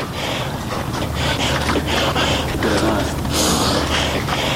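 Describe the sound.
Heavy breathing of a Firozkoh mountaineer climbing Siakoh: labored, rhythmic breaths over a steady rushing background noise.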